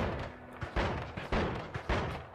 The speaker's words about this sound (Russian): О, нет, вот это оружие О. мне сейчас нравится. Теперь у меня дробовик. Автомат с дробовиком вместе.